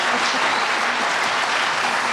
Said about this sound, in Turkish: Selçuk Murat Kızılateş'e bir alkış rica ediyorum bu güzel sürprizi için.